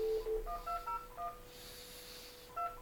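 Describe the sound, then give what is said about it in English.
Telephone number being dialed on a keypad: faint, short, clipped touch-tone beeps come in a quick run, then a pause and a couple more tones, without voices. “We'll dial some numbers and see if Mazzella's available.”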